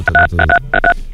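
Telephone keypad DTMF tones as someone dials the gendarmes, a quick run of loud, clean beeps in short clusters with brief gaps between them.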